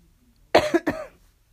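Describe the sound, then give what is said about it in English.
A man gives a brief cough, a few quick, rough bursts packed into under half a second, then quiet. “He coughed.”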